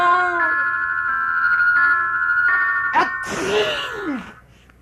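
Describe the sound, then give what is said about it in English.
A loud, sudden sneeze bursts out after a few seconds of sustained, steady tonal sound, its breathy blast dropping away quickly at the end. “Gesundheit, Dag Hammarskjöld.”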